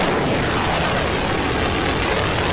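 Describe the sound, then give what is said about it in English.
Booster ignition and liftoff of Space Shuttle Atlantis: a deep, continuous roar from the rocket boosters and main engines. The thundering rumble stays loud and steady from start to finish. “We have both main engines start. 2. 1. Booster ignition and liftoff of the Space Shuttle Atlantis, building the station and our future in space.”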